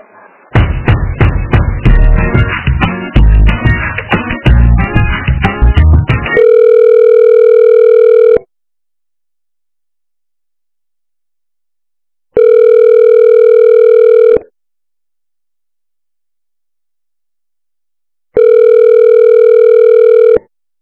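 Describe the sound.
Telephone ringback tones sound while a call is being transferred: three long, loud, steady tones of about two seconds each, separated by silence, following a few seconds of dense, busier sound at the start.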